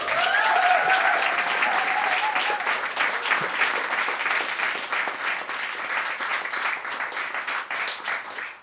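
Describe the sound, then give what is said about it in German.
Enthusiastic applause from a live audience in Berlin, loud at first with a few cheers, then thinning slightly as the clapping continues. “War gut mit dem Applaus, oder?”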